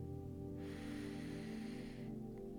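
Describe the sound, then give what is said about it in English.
A deep breath in during a guided breathing exercise: a soft, airy inhale lasting about a second and a half, rising out of and fading back into a steady, low tonal background. “Take a deep breath in.”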